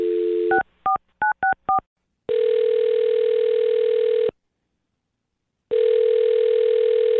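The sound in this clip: A telephone call is dialed: a dial tone stops, a few quick keypad beeps follow, then two long, steady ringing tones sound, separated by a stretch of silence.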